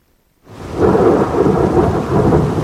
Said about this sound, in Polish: Od 50 do nawet 150 litrów wody na metr. Takie ulewy naprawdę potrafią napytać biedy.